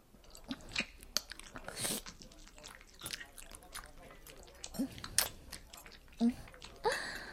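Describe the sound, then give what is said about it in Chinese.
A person chewing while eating a meal: soft, irregular crunches and wet mouth clicks scattered throughout, faint and close, with a few sharper bites standing out. “现在我还在吃饭呢。”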